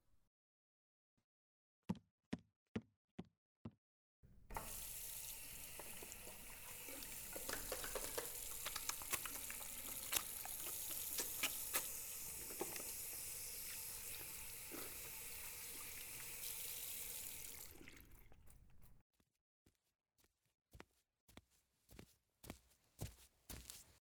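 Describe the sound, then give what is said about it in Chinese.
Hands washed under a running tap: a steady, hissing stream of water runs for about fifteen seconds, with a few sharp clicks and knocks before and after it. “那我先洗手吧。”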